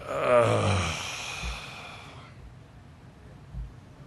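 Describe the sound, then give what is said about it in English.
A voice imitates a groan: one low, drawn-out voiced moan that sinks in pitch and trails into soft breathy exhalation, followed by quiet stillness with faint low thumps. “That's a groan. If y'all weren't familiar with that, that's a groan.”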